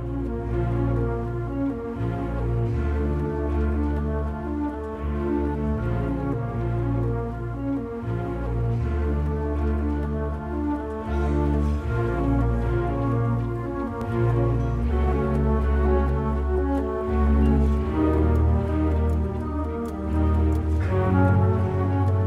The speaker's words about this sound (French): c'est ce mélange de plusieurs flûtes, vous savez, il y a des flûtes de différentes tailles, donc toutes ces flûtes jouent ensemble